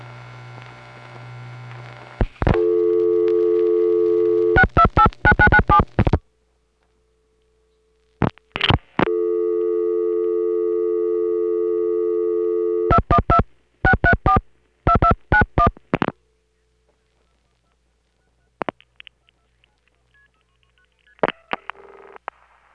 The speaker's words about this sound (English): Here the 628 demonstrator is called, and on it the number is dialed with 212 plus, sending it through Midtown Tandem.